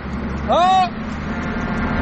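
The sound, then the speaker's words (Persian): A single short car horn honk, about half a second long, sounds over a steady engine drone as a driver signals a friend whose car has broken down on the road. “بذار شل کنم یه بوق واسش بزنم ببینم کمک میخواد یا نه”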